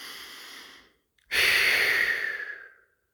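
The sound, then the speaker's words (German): A deep cleansing breath begins with a softer, airy inhale. After a short pause comes a loud, long, breathy exhale that slowly fades out. “Reinigender Atemzug, ein und aus.”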